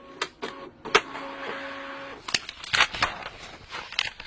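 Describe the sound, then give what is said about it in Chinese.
A printer prints out a document, giving a mechanical whir followed by a run of uneven clicks and clunks as the paper feeds through, fairly faint and alone. “这样吧，我拉一份打印稿，你们自己看看好吗？”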